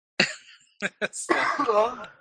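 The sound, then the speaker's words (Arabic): A person coughs in a few abrupt, rough bursts, the first loudest and trailing off, before talking picks up and continues. “جالس تقحقح وطشيتها علي”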